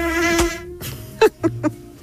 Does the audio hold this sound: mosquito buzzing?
yes